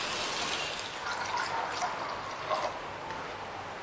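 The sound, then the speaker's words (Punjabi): Chickpea cooking water pours into a pan of spiced masala in a steady, soft rushing stream with no pauses and no voices. “Okay, ਹੁਣ ਤੁਸੀਂ ਪਾਣੀ ਪਾ ਸਕਦੇ ਹੋ, ਚਨਿਆਂ ਦਾ ਪਾਣੀ।”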